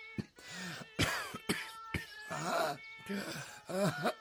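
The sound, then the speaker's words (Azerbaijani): Coughing comes in many harsh, raspy bursts at an uneven pace, some with a voiced, groaning tail. The sound is fairly quiet overall, with short pauses between the fits. “bu öskürekler ne kocalıktandır, ne de Covid'dendir.”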